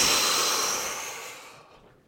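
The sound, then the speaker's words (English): A long, airy human breath through the nose and mouth, a steady breathy hiss that slowly fades away to silence, part of a relaxation breathing exercise. “You inhale really long, and then you do a really sharp inhale again with your nose, and then you exhale.”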